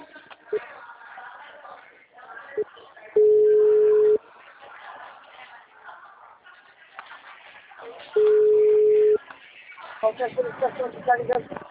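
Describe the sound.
An outbound phone call from a loan agent rings on the line with two steady, one-second ringback tones about five seconds apart, and quieter voice-like sounds around them.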